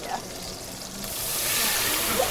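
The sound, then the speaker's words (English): Onions and meat sautéing in a pan give a steady frying sizzle, a broad hiss that swells louder after the first second and holds to the end. “Some were pretty nervous about sautéing the onions and then the meat.”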